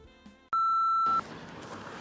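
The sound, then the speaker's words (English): A single steady electronic beep from a voicemail system, a clean high tone lasting under a second, followed by a low hiss of line noise. “oh, looks like we have a couple voicemails. See some red lights. I think it'd be nice to check in with a voicemail for a change.”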